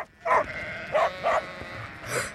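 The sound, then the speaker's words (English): Sheep running about bleat four times in short, wavering calls, the last one higher and breathier, over a low background murmur. “The sheep are running around. Whoa! No, don't get up! Lie down! Lie down, stupid sheep!”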